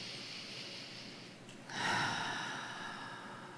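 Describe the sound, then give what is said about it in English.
A slow, deep breath is drawn in during a guided healing session. A soft breathy rush swells after a quiet start and then tapers gradually, faint and with no talk. “as we prepare for the final channel, I'd like you to just take a breath with me.”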